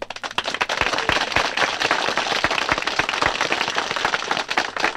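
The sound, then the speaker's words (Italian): Applause from a dense crowd packed under a pergola at a country wine arbor in Spessa: a loud, continuous rattle of many hands with sharp individual claps standing out, and no voices. “Gli applausi provengono dal folto pubblico accalcato sotto la pergola ad una frasca, dispensatrice dei gagliardi vini di Spessa.”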